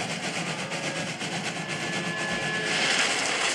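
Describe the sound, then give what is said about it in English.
Train going through a tunnel in a film scene: a steady, loud, dense roar and rumble that runs throughout and swells slightly toward the end. “There you go, that was the train going through the tunnel.”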